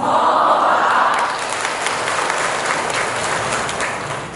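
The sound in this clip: A Buddhist talk audience breaks into applause, a dense, steady wash of many hands clapping. It starts full and grows slightly softer toward the end.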